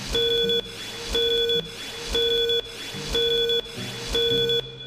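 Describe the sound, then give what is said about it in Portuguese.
Five evenly spaced beeps of a steady mid-pitched tone, each about half a second long and repeating roughly once per second, loud and clear with no talk. “Atenção, senhoras e senhores, para o toque de 5 segundos.”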